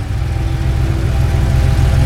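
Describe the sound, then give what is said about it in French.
Car engine idling as a luxury car parks in a snow-covered lot at an astrophysics centre: a steady, low, throbbing rumble that holds at an even level throughout. “Ce matin de janvier, alors qu'il vient de garer sa voiture de luxe sur le parking du centre d'astrophysique d'Harvard, recouvert d'un épais manteau neigeux”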